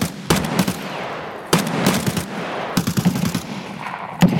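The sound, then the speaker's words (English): Machine-gun fire in a video game gunfight: several loud, rapid bursts of rattling shots, each beginning with a sharp crack, separated by brief gaps of lower, steady battle noise. “we're in a gunfight, everybody. Exciting.”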